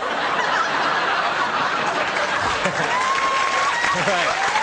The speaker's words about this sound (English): My mom loves those applause breaks.